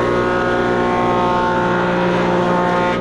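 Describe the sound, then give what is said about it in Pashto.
Woodworking machines cutting wood in a carpentry workshop make a loud, steady drone with a layered harmonic whine that holds unbroken from start to finish. “د ترکانی یا نجاری په دغه کارخونه کې نعمت الله سره نور للسو زیات کسان کار کوي. څوک په ماشینونو لرګي رکوي،”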